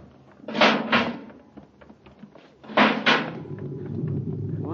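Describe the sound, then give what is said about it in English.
Two pairs of sharp, heavy clunks from a spacecraft's inner hatch being opened, a sound effect in a science-fiction radio drama, each pair quickly followed by a lower rumbling hum that swells and settles between and after them. “Quick now, open the inner hatch.”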